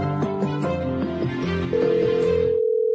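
A telephone rings unanswered with a melodic ringtone of quick, bright tones, followed by a single steady, sustained tone held at a fairly loud level.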